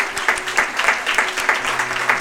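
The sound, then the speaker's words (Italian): An audience applauds a newly baptized woman at a church service closing the year. Many hands clap in a steady, rhythmic patter at moderate loudness, with faint voices mixed in. “Alzati, vogliamo fare un applauso, dai.”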